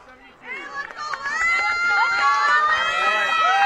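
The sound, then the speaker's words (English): Crowd cheering at a softball game between Deerfield and Mineral Point, rising from near quiet into loud, sustained high-pitched shouting from many voices that stays strong to the end. “Crowd makes some noise.”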